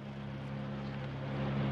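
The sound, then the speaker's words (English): A car engine drones steadily while driving, a low, smooth hum with a faint steady tone on top that swells slightly toward the end. “I hope you don't mind driving us in your car”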